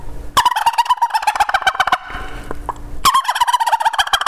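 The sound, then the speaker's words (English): A turkey gobble made with a tube call, imitating a wild tom in two loud bursts of rapid, rattling pulses, each lasting over a second, with a brief quieter gap between them. “then I give a couple gobbles and see how he reacts”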